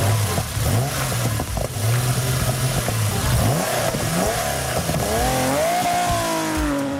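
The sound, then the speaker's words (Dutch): A Porsche 911 sports car engine revs hard, a loud, throaty roar whose pitch surges up and down in repeated sweeps and climbs sharply toward the end, with no voices. “Ja, hoe klinkt een snelle auto zoals een Porsche 911 eigenlijk?”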